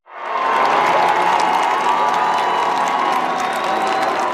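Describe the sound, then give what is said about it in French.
A crowd cheers and applauds the pope in Metz, France. Loud, dense clapping mixed with shouts and whoops starts abruptly and stays sustained throughout. “Le pape Léon XIV, encore une fois, acclamé.”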